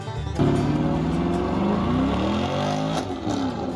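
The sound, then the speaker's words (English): A Chevrolet Malibu with an LS engine swap revs loudly, its engine note climbing and dropping through repeated throttle blips, with a steady mechanical roar underneath. “It's a Malibu with an LS swap, if I'm not mistaken.”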